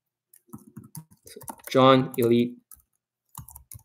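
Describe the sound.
Sparse clicks of typing on a computer keyboard come in short bursts before and after a brief stretch of a man's speech.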